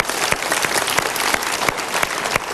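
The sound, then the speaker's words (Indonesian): A talk-show studio audience applauds: loud, dense clapping runs throughout with a regular pulsing beat recurring every third of a second or so. “Tepuk tangan untuk pilihan Anda.”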